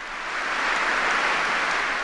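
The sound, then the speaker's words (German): Applause from the cardinals at a Mass, thanking the resigned Pope Benedict XVI: a steady, even wash of many clapping hands that swells slightly at the start and then holds. “Unter dem Beifall der Kardinäle für das leuchtende Pontifikat.”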